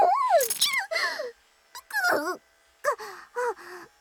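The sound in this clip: A dog whimpers in several short, whiny bursts: high, wavering yelps with falling and sliding pitch, separated by brief silences.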